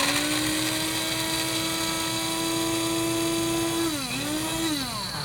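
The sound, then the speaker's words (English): Whine of a small electric coffee grinder grinding a torn-up quarter slice of bread to clear out coffee residue. The motor hum is steady and loud throughout, then its pitch briefly dips and recovers near the end. “this really works beautifully, easier than the blender because it's got a small capacity for grinding. But before you do that, you might want to take that coffee flavor away. So just rip up like, I don't know, a quarter of a piece of bread maybe and put it in here, and then you just put the cover on.”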